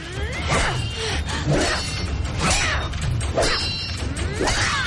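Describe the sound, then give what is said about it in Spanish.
A sword fight in an animated fantasy film, with a fighter defending from the ground against an attacker. Sharp metallic clashes and heavy impacts come in a rapid, irregular series, mixed with swishing blade sweeps, loud throughout. “Desde el suelo Mona se defiende con la espada.”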